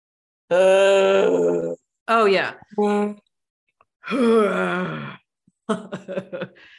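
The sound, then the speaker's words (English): Exhaled breaths made as a sound from the back of the throat, as in yoga breathing: a few long, voiced, groaning sighs separated by pauses, ending with a short, choppy burst. “when you breathe out, you want to make a sound from the back of your throat. If you do yoga, you've probably done this sound.”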